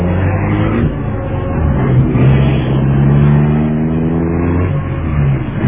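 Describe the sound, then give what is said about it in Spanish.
Engine of a black luxury car driving away, a steady mid-pitched drone that holds at a constant loudness for the whole clip. “Y el lujoso auto negro se alejó llevando a Solín”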